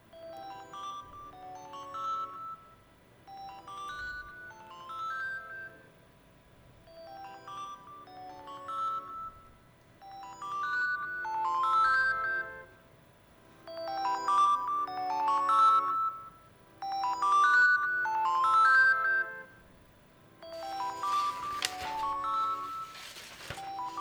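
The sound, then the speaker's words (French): A telephone rings with an incoming call that an answering machine picks up, playing a bright electronic melodic ringtone that repeats in several cycles of chiming tones. “ça c'est pas le chronomètre, c'est le répondeur. C'est une personne qui appelle.”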